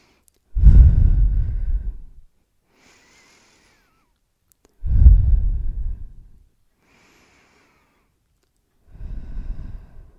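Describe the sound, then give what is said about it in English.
Three deep breaths taken slowly during a guided relaxation exercise, each a long, heavy, breathy exhale lasting over a second, separated by quiet pauses with faint, soft inhales; the third breath is cut off at the end. “close your eyes and I just want you to take three deep breaths with me”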